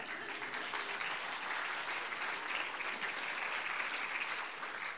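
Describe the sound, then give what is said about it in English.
An audience applauding a guest speaker's presentation, with a steady, dense wash of clapping that holds at an even level for about five seconds. “Just give him a hand. Yay.”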